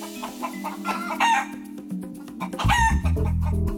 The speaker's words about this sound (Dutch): Zo klinkt het al jaren in en rond het Utrechtse Julianapark, waar grote aantallen kippen en hanen rondlopen.